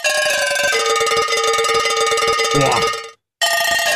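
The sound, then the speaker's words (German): A cowbell plays an Oktoberfest party hit, a steady run of bright, metallic ringing tones. The notes stop for a brief gap near the end and then resume. “Wir haben einen Kuhglockenspieler beauftragt, ein paar der größten Partyhits einzuspielen, die man jedes Jahr auf dem Oktoberfest hört.”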